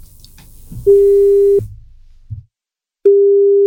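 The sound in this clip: Telephone call tone as a radio station rings a listener: two long, loud, steady mid-pitched beeps separated by a silent pause.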